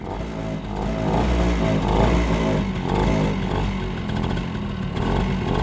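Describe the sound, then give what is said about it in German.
A motorcycle engine runs steadily and loudly throughout, a rough, throbbing drone with gentle swells in level and no voices over it. “zuerst das Moped. Jetzt das Motorrad.”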